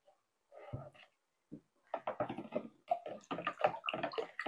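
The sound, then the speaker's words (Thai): A spoonful of alum stirred into clean water: irregular watery swishing and sloshing in several short bursts, fairly faint, growing busier toward the end. “ตัก1ช้อนแล้วเราก็จะใส่ลงไปค่ะใส่ลงไปในน้ำสะอาดแล้วเราก็คนเลยค่ะคนจนกว่าเขาจะละลาย”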